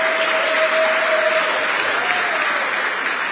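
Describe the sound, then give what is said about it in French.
The audience of a live French-language show applauds itself with sustained, dense clapping that stays loud and even from start to finish. “Est-ce que nous pouvons acclamer encore pour nous-mêmes?”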